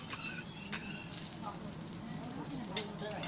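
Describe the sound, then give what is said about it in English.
Vegetables sizzling on a grill give a faint, steady hiss broken by scattered small crackles and pops. “So he's grilling up some vegetables.”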